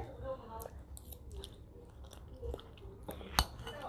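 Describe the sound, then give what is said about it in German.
Strawberry cake being eaten makes soft, moist chewing sounds, quiet and close. “Ich will einfach mit euch das essen. Mm. Mm, lecker.”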